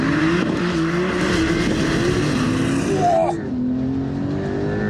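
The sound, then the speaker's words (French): A car launches at full throttle with launch control on a very slippery wet track, giving a loud, steady engine roar that breaks briefly after about three seconds and then carries on at a lower pitch. “Donc, pied à fond sur l'accélérateur. J'ai le petit affichage hold qui me dit que je suis en procédure. Launch control, c'est parti”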